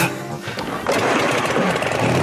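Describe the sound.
A motorcycle engine starts with a loud, rough, rasping roar that jumps sharply just before the first second and then holds steady at full volume.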